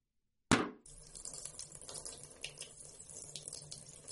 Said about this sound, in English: What are you going to do? Drain the gas out of the tank.